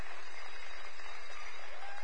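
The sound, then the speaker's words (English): Applause from a church audience: a brief, steady wash of clapping that holds at an even level throughout, without distinct individual claps. “So with a big round of applause, Kids Church is dismissed out the back end.”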